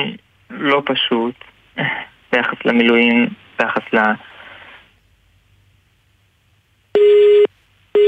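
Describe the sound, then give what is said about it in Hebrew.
A telephone busy tone sounds after a dropped call: a person talks first, then after a silent pause a loud, steady beep begins, followed by the start of another beep as the tone repeats. “התנתק לנו? אוקיי, תכף אנחנו ננסה לחדש את הקשר.”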